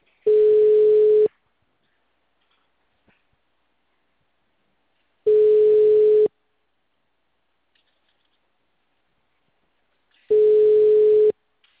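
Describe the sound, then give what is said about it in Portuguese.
Telephone ringing tone while a call connects: three identical bursts of a steady mid-pitched tone, each about a second long, separated by roughly four seconds of near silence. “Chamando ainda.”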